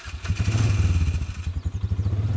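An ATV drives through thick native prairie grasses such as cordgrass, switchgrass and bluestem, its low engine throbbing in quick, regular pulses with some clattering, and no voices.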